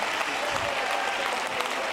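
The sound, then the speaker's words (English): An audience clapping hands during worship, dense steady applause from many people that keeps on evenly and loudly throughout, with voices mixed in beneath. “Oh, would you clap your hands and lift your voice out?”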